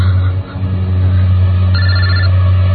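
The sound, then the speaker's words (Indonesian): A mobile phone ringing: a continuous electronic ringtone sounds steadily throughout, with no pauses, over a heavy low droning hum. “ini suara dering handphone siapa?”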